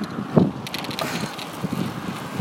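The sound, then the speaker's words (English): Wind rush and rattle from a bicycle being ridden to the gym, with a brief mechanical clunk near the start as the gear is shifted up, then steady rolling noise. “I decided to record myself. I'm riding to the gym. Change the gear up and I am”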